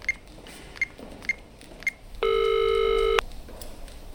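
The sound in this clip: A telephone being dialed sounds four short keypad beeps at an even rhythm, then a single sustained ringing tone lasting about a second, followed by quiet.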